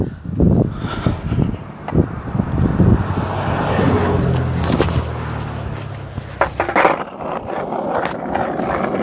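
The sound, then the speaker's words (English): Skateboard riding on a trip to Rosarito: a rough, continuous rolling rumble with occasional sharp clacks, mixed with gusty wind noise on the microphone. “I'm riding my skateboard.”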